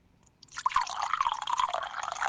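Whisky poured from a corked bottle makes a steady, splashy liquid stream. It starts after a brief quiet moment and keeps running at an even, moderate level to the end, with no voices.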